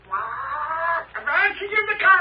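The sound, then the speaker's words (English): A parrot squawks in two raspy, harmonic calls: a longer, steady cry, then a choppier burst that rises in pitch. The calls are loud and heard alone. “It's a parrot”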